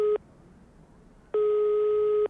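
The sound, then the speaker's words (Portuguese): Ringback tone of an outgoing telephone call: a steady, mid-pitched electronic tone, with a brief tail at the start, then a gap, then a second burst lasting about a second. No voices. “Estou a ligar. Vamos ver. Está a chamar. Está a chamar.”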